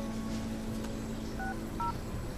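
Two short electronic keypad tones from a cell phone being dialed sound one after the other, faint over a low steady background hum.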